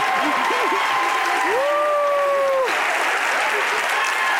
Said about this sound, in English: The audience is standing up. Oh, wow. Pretty amazing.